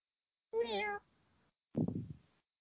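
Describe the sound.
Cat meowing in two calls: a first, clear, high and wavering meow, then after a pause a lower, rougher second meow.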